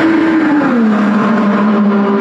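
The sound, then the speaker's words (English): A 2028 IndyCar race car engine testing on the oval at Indianapolis Motor Speedway makes a loud, continuous droning whine. Its pitch dips slightly early on, then holds steady to the end. “Seeing and hearing IndyCar driver Alexander Rossi testing the 2028 IndyCar on the IMS Oval.”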